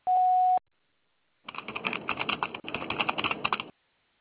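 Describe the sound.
A single steady electronic beep, the voicemail tone before a message is recorded, sounds alone for about half a second at a fixed pitch, then cuts off. A stretch of rapid, scratchy clicking noise follows.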